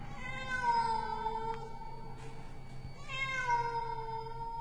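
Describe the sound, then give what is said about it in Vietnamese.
A cat meowing at night gives two long, drawn-out, tonal meows separated by a short pause. Each cry is clear and moderately loud, with a slight downward bend in pitch. “Con mèo kêu lên phá tan màn đêm yên tĩnh.”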